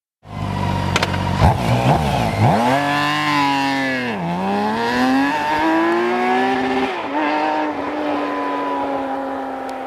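A BMW K series inline-six engine revs hard and loud, its whine climbing in pitch, dipping briefly, then rising steadily again before settling into a sustained, even drone toward the end.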